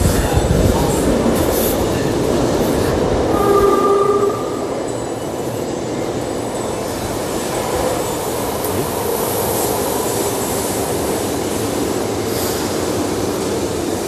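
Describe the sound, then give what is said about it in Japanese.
Subway train at a station, on the opposite track, with a steady heavy rumble and a brief high wheel squeal; it is louder for the first four seconds, then settles into a constant roar. “あ、電車来そう。あ、反対でした。”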